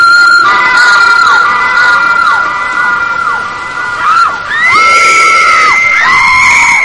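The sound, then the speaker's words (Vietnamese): Screams of three girls in wind and rain: several high, sustained shrieks that overlap and tail off with falling pitch, carried over a steady, rough wash of background noise. “Những tiếng kêu thét xé lòng của ba cô gái vang lên trong tiếng gió mưa.”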